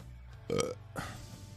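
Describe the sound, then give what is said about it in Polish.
A man lets out one short, deep burp during a casual conversation, followed by a softer breathy noise against a quiet background. “Beknąłeś, psycho.”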